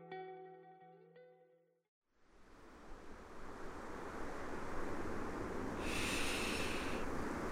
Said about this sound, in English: Salty air is filling up my nose. I'm about 1,000 miles from the beginning of the Colorado River. I'm watching wave after wave hit the sand in Southern California.